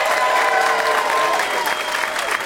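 Audience applause welcoming four guests onto a stage: a loud, steady wash of clapping with a little cheering mixed in, holding at an even level from start to finish.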